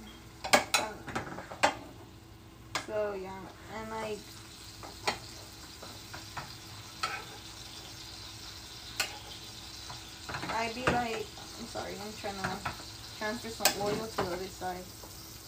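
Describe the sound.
Oil sizzles in a frying pan as it is moved to the other side. Faint frying hiss runs under many short bursts of stirring and scraping, with clinks of utensil against pan scattered through.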